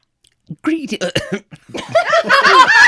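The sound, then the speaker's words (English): A wet throat gurgle as someone chokes on spit, coming as sputtering, cough-like bursts that run into voiced, laugh-like sounds and talking. “Sorry, I had a little gurgle come up my throat right at that exact moment.”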